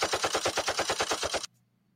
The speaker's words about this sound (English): We get the machine guns. Baby, what I tell you, I looked at those things and all I heard was.